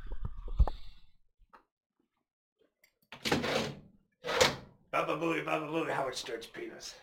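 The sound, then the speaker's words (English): A window is pushed open with a short, loud thunk and rattle, followed by silence and then people talking. “I'll just open the windows 1 second, real quick.”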